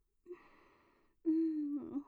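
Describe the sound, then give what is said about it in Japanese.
A person takes slow, deep breaths, with no words spoken. A soft, breathy first breath is followed by a louder, longer, voiced exhale like a sigh. “吐いて。そうそう、深呼吸、とってもお上手。”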